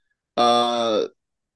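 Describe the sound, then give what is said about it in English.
A dog barking in the background, a single drawn-out harmonic bark or yelp that holds steady and then sags in pitch as it ends, loud and alone with no talk. “dog's barking. Sorry. I try to mute it as much as I could.”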